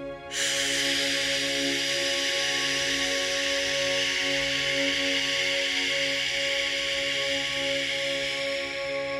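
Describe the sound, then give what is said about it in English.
A long exhale hisses through gritted teeth during a breathing exercise. It starts abruptly and holds at an even, steady loudness for about nine seconds, with no talking. “Hold once more, holding on the inhale. Exhale, gritted teeth.”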